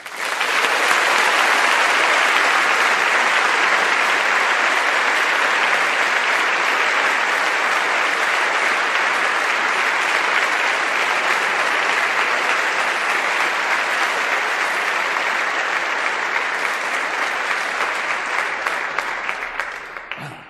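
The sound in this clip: Audience applause at Stanford welcoming Elon Musk and Steve Jurvetson: a dense, loud, steady wash of clapping lasting about twenty seconds and tapering slightly at the end.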